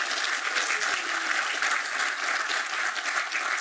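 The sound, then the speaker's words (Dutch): A small round of applause from the audience at a council swearing-in, welcoming a new council member. The clapping is steady and moderate and lasts throughout. “U mag een klein applausje geven.”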